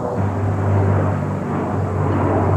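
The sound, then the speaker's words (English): A slow airplane flies overhead with a steady, rumbling engine drone. A low hum runs beneath the broad noise, and the sound stays level for the whole stretch with no voices. “It's a really slow airplane.”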